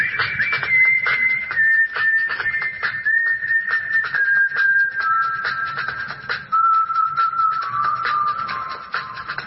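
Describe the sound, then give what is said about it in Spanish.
Someone whistles a favourite song while walking: a clear, wavering whistled tone that slowly sinks lower over time, over a steady pattering beneath. “Estaba caminando, pensando y silbando mi canción favorita.”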